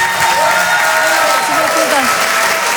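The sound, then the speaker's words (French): Comedy club audience applauding and cheering to welcome a stand-up comedian onto the stage, thick continuous clapping at an even level with whoops and shouts mixed in. “Je vous demande de l'encourager. Faites du bruit, s'il vous plaît, pour Lise de Hurtevent.”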